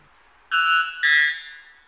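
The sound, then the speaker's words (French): White bellbird's metallic call in the Amazon forest: two loud, ringing harmonic notes back to back, the second pitched slightly higher and fading out, with no voices. “Si le jet des chênes est l'alarme des forêts hexagonales, l'Araponga blanc est le carillon de la forêt amazonienne. Son chant métallique caractéristique est si puissant qu'il détient tout simplement le record”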